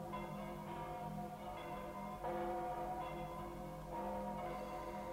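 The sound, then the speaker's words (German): Church bells in London ring in the new year, faint and mellow, with a few struck tones that swell and hang in long overlapping ringing overtones, heard alone without voices. “Und jetzt läuten die Glocken das neue Jahr ein. Psst. Seid still. Horcht.”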